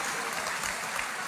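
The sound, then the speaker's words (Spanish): Women in an audience applauding, a brief, steady patter of many hands clapping at moderate loudness. “Y sí, las mujeres están aplaudiendo ahorita, ¿ok?”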